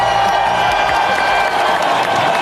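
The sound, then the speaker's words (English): A big round of applause with cheering from a crowd, loud and dense, sustained evenly without pauses for its whole length. “Yeah, big round of applause.”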